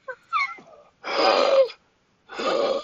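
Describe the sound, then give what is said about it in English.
Wheezing: a short, higher-pitched tonal squeak comes first, followed by two drawn-out raspy, airy wheezes separated by a pause. “There's a lot of wheezing. Yeah, Jesus. Do we have to call 911? I need an inhaler. That wheezing is just a little too strong.”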